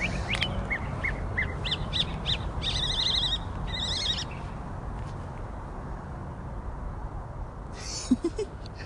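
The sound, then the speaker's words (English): Birds calling outdoors during a morning walk to work, several loud, harsh calls in the first few seconds over a steady background hiss, then quieter stretches and one more brief call near the end. “I stopped and looked up at him and he flew away. I really love nature. I love the fact that I can walk to work in the morning and hear these crazy birds”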